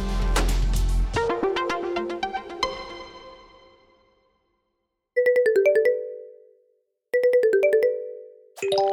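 Phone ringing with an incoming call, playing a short melodic ringtone in clear repeating bursts separated by brief silences, with a third burst starting at the end.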